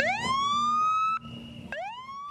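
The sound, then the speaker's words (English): Police sirens wailing as an escort for a delivery van bringing king cakes to a New Orleans carnival kickoff. The loud siren sweeps up in pitch and holds, breaks off briefly, then sweeps up again. “Sirens wailed as the Dongfang van, with full police escort, delivered the first King Cakes of the season.”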